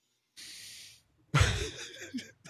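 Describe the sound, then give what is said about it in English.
A deep breath drawn in during a guided meditation: one steady, airy inhale that lasts about half a second, then a pause and a louder, rougher burst of breathy sound. “Next deep breath in”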